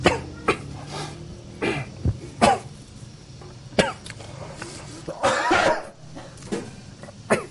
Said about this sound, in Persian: سرفه داری میکنی